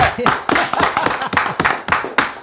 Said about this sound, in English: What about the audience? Let's get a clap from them.